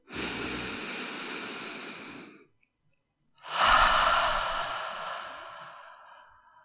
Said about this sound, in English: Deep breaths in.